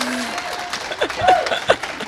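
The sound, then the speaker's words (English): Scattered audience clapping at a gathering: lighter and uneven, with a few louder bursts of claps rising above a thinner patter and brief vocal sounds mixed in. “You can clap for that.”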